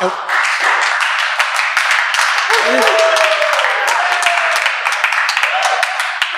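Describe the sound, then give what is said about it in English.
A live studio audience of students applauds at an election-night show at Bethel University, with steady dense clapping throughout and voices rising over it. “And what you're hearing is, believe it or not, in this COVID season, a live studio audience.”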